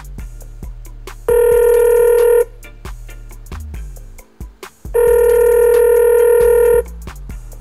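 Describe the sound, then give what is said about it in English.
A telephone call being dialed and ringing: two long, steady, bright electronic ring tones, separated by a pause holding brief clicks and short falling tones, over a faint low hum. “We got a call in, Adam from Chicago. Dial him in.”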